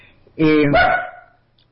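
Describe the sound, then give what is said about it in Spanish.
A dog recovering from an operation gives one short, weak, tonal bark or yelp that trails off, heard alone without other sounds. “Sí, mi perro está convaleciente de una operación y recién hoy volvió a acordarse que tiene que ladrar, pero ladra poquito y sin moverse de su lugar.”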